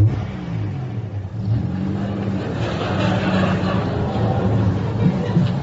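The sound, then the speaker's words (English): Engine of a car reversing back to a corner so its arrival can be filmed again for cameras, a steady mid-pitched hum with some revving that grows slightly louder, under a murmur of voices. “Okay, driver, just reverse back to that corner so we can see you arrive.”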